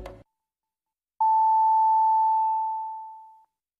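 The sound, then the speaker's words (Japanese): Radio time signal marking six o'clock on an 87.3 MHz station: a brief burst of talk, a short silence, then a single long, steady, pure mid-high tone that starts abruptly and fades out gradually over about two seconds. “87.3 メガヘルツ。レッツウェーブが6時をお知らせします。”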